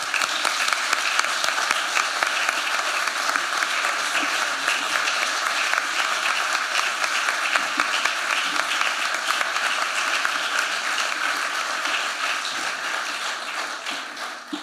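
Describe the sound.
Audience applause at the Royal Academy of Arts as an actress is welcomed to the stage: a steady, even wash of many hands clapping for the whole stretch, tapering slightly at the very end.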